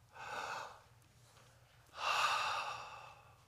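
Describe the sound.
A person takes one slow, deep breath in two airy phases: a softer first draw of air, a pause, then a louder, longer and brighter rush of breath. No other sounds or speech.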